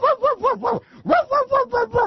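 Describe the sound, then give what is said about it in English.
A voice imitates a porch dog barking, giving nine rhythmic, evenly spaced yelping barks in a run of four and a run of five, separated by a brief pause. “That's a dog that stays up on the porch and just barks his ass off.”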